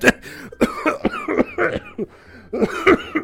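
A man's coughing fit: many harsh, raspy coughs come in quick irregular bursts, some close together, with short gaps between the clusters.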